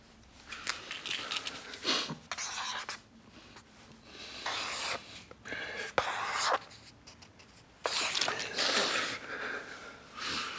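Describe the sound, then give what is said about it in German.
A pen scratches on paper while a pentagon is drawn on a bed, in rough, irregular strokes with short pauses between them. “Zeichnen Sie mir ein Fünfeck, bitte. Ein was? Das ist eine Figur mit fünf Ecken und ein Pentagon.”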